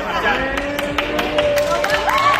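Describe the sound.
Evacuated residents at reception centres clap and chant on hearing they can return home. Sharp rhythmic claps punctuate sung, sustained voices, and people talk over the clapping.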